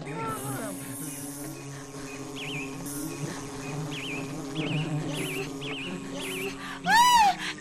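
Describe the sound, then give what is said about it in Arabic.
A wasp buzzing inside a beehive, a continuous insect drone layered with warbling tones, ending with a sudden loud burst near the close. “فدخلت نونا يا أصدقاء إلى الخلية بحذر، وعند دخولها إلى الخلية رأت الدبور وهو يجلس بغرور”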